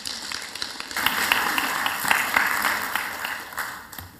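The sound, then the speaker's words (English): Audience applause welcoming a pastor to the platform: clapping starts after a quieter first second, swells to a full, steady patter, then gradually tapers near the end. “So folks, please put your hands together and welcome Pastor Ian Miller to the platform.”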